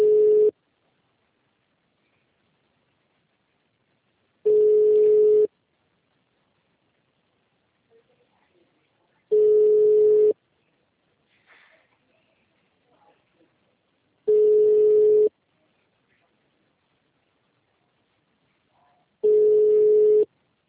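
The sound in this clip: A phone rings on a call that goes unanswered, heard as five identical steady tones of about a second each, repeating every five seconds, with near silence and a few faint noises between.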